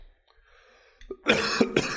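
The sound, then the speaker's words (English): Harsh coughing and throat clearing from someone with a troubled throat, a short run of rough bursts that rise suddenly out of faint background sound. “Having some coughing issues here today. Okay. I'm choking a little bit here.”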